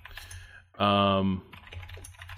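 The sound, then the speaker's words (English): Light tapping on a computer keyboard while someone searches for something, with brief quick keystrokes and voices around it. “Sorry for the tapping. I'm trying to find this thing right now.”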